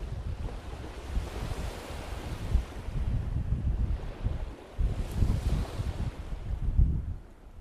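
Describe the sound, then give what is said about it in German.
Waves break on the beach at Prora on Rügen, between Binz and Sassnitz, at the start of summer. The surf rushes steadily with rolling swells and a low rumble underneath, and no voices are heard. “Wenn man weiß, wo die Wellen ans Ufer von Rügen schlagen, sieht man alles sofort vor dem geistigen Auge.”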